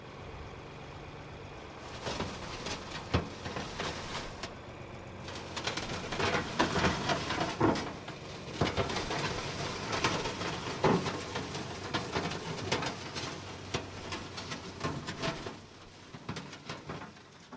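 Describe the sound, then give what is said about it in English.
A 4020 bucket tractor digs into farm soil to pull out rocks: a low engine rumble runs under irregular scraping and crunching, fairly faint throughout. “That was the sound of a 4020 bucket tractor digging into the dirt. We use it for rock picking, so when you find a big rock in the ground, you just dig around it and pull the rock out.”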